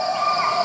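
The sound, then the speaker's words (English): Sumatran rainforest insects in Indonesia form a dense, continuous chorus of shrill buzzing and trilling. The steady drone holds at a moderate level, with no voices present. “this is the sound of Indonesia and Sumatra.”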